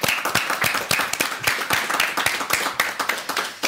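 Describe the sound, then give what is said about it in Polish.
A small TV studio audience applauds in welcome at the start of a Polish talk programme. Distinct, crisp individual hand claps in a steady, moderately loud patter. “Jest z nami także publiczność w studiu telewizji Idź Pod Prąd. Przywitajmy brawami.”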